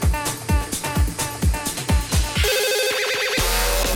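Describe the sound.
Telephone ringing for a prank call segment: a few seconds of regular thumping beats give way to a steady, bright electronic ringtone.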